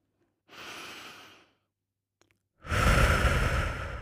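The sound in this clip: A deep belly breath during a standing breathing exercise: a soft, airy inhale lasting about a second, a brief pause, then a longer and louder breathy exhale.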